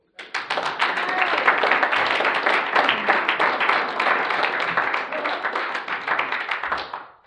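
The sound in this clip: An audience at a speakers group meeting applauds to welcome a speaker, a dense, steady patter of many clapping hands that swells quickly, holds for about seven seconds and then fades.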